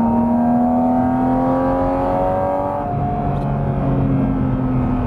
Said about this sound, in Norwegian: og så bare mater du inn gassen litt sånn sakte, bare hør hvordan lyden utvikler seg til å bli sånn hardere på slutten.